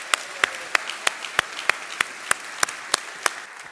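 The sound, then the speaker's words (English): Applause from a church audience welcoming a returning guest speaker, sharp, evenly spaced claps ringing out above a steady wash of clapping. “Why don't you put your hands together and let's welcome Beth back to Faith Bridge.”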